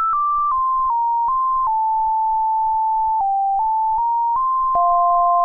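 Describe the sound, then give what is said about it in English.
Sonification of one star orbiting another in a binary star system: a sequence of pure electronic tones held for varying lengths, stepping down and up in pitch and ending lower, with faint clicks at each change. “So that is the sound of two binary stars orbiting each other, or at least one star in a binary system orbiting the other one.”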